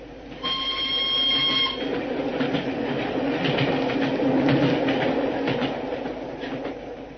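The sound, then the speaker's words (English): A single railway carriage thunders past with a steady, heavy rumble and rattle throughout. A brief high tonal sound rings near the start. No voices are heard. “at Canterbury, we saw the single carriage of the special go thundering past us”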